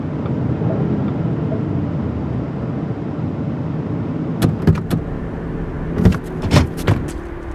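Steady low engine rumble of a car pulling into a gas station, a continuous hum broken near the end by a few sharp clicks and clunks.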